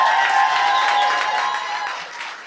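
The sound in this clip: Studio audience applause welcoming a country music duo onto a TV stage, a steady wash of clapping that gradually fades toward the end.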